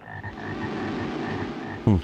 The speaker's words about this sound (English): Another frog.